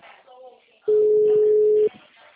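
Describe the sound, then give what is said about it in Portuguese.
A phone's busy tone after a dropped call, heard as one loud, steady electronic beep lasting about a second, with faint voices before and after it. “Opa, acho que caiu a ligação, né? Ah, caiu.”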